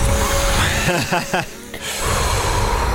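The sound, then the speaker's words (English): Exaggerated breathing in and out during a short joking guided meditation, a few sharp, forceful breaths amid talk and background noise. “Breathe in, breathe out, continue.”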